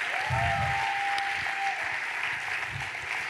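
Applause from an audience in a church during a sermon, a dense, continuous patter of clapping that stays steady throughout.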